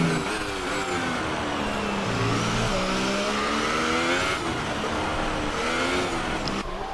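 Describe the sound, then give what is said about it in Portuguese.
High-revving race car engines, including McLaren and Mercedes cars, scream past during a race. Their whining tones sweep up and down in pitch continuously, with several cars overlapping throughout. “Tá aí o Joari de McLaren. O Frederico vem de Mercedes, ele vem na quarta posição.”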